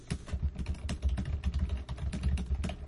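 Someone types on a computer keyboard, writing messages on Telegram, with many quick, uneven keystrokes in a continuous clatter.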